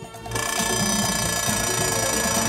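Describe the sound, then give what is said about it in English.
An alarm clock rings by a bed, starting abruptly after a brief quiet moment and continuing as a loud, steady, metallic ringing to the end. “A dashing mustachioed man wakes up with a start and shoots his alarm clock with a silencer gun.”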